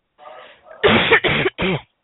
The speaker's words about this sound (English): And it shows when you're coughing.